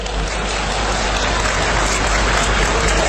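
Applause from an audience at a Beijing comic stage performance: a loud, dense, steady patter of claps fills the whole stretch without pause, sounding almost like heavy rain.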